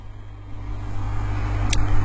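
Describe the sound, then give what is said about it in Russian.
A car drives at 62 km/h on a road limited to 20. Its engine and road noise make a steady low drone that grows slightly louder over the couple of seconds. “Слышите звуки? Это я еду со скоростью 62 км в час”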